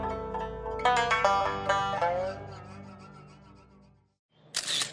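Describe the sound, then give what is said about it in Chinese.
A camera shutter clicks as a photo is taken: a sharp, bright snap near the end, after a sustained tonal passage. “咔嚓一声，又是白光闪过。原来是钟爱华拿起相机给我拍了一张。”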